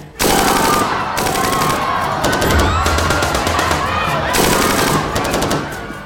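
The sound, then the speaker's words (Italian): Heavy machine gun firing in loud rapid bursts, several in succession with short gaps between them, each a dense rattling clatter of shots. “qualcuno si era portato anche una mitragliatrice pesante e provò a vedere se per caso funzionava.”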